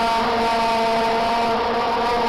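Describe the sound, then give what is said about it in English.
A plastic spinning noisemaker toy that is blown into gives off a loud, steady, harsh buzzing drone. The buzz is rich in harmonics and sustained without a break from start to finish. “Kind of those spinny cracker things. Oh, yeah, everyone had them, but this was something you blew into. Let me see if I can find audio of what it sounds like. It is very obnoxious.”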